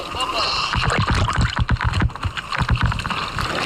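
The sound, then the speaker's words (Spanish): Water splashes and churns as a released sea turtle swims back into open sea, with irregular sloshes, gurgles and bursts of wind buffeting. “Ese es el sonido del momento. Merece la pena, si podéis, ver las imágenes de cómo esta tortuga vuelve a nadar en aguas abiertas gracias a la ayuda de todas estas organizaciones.”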